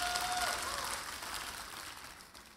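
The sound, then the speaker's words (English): A church audience clapping in praise during a worship service, a dense, faint wash of applause that eases off slightly as it continues. “Let's give the Lord a clap.”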